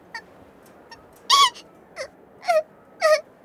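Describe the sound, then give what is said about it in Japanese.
A girl crying in a few short whimpering sobs, spaced out with quiet between them, several dipping downward in pitch at their ends. “泣くなよ、しばらくしたら見つかるって。”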